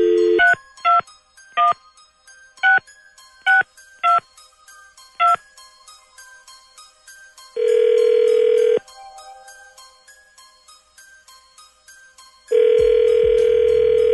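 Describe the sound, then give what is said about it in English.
A telephone number is dialed as seven keypad tones, beeping in quick, uneven succession. Two long, steady ringing tones follow, separated by a pause, as the call connects. “Dialing at random.”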